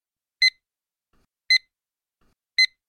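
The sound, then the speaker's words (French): Three short, high-pitched electronic warning beeps marking the end of a language listening exam, evenly spaced about a second apart, each crisp and identical against silence. “Al final del examen se escuchará este pitido de aviso.”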